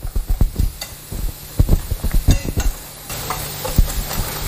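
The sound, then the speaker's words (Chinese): Vigorous stirring of a mix of infant formula and animal milk powder with hot water, a spoon scraping and knocking in the container with many quick, irregular clicks and scrapes over a steady hiss. “将热水倒入奶粉中，少量多次。 这个兑奶得使劲的搅拌，尤其是这第一次的搅拌，得给它那个充分的搅匀了”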